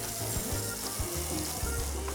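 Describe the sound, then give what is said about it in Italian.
Porcini mushrooms sizzle steadily as they brown in hot oil, a loud, dense crackling hiss with faint low bumps running underneath. “Guardate, la rosolatura del, del porcino che prende colore”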